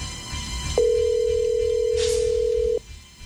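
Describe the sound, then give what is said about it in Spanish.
A telephone being dialed for a prize contest call sounds one steady, mid-pitched electronic tone lasting about two seconds, which then cuts off sharply. “Estamos marcando en este momento.”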